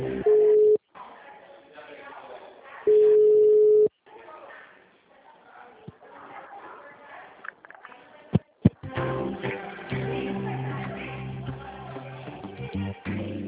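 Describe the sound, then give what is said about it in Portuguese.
A telephone line tone plays while a call to a Santander contact is being transferred: two long, steady, mid-pitched tone bursts, then a louder, dense tonal passage. “De um momento, estamos transferindo a sua ligação.”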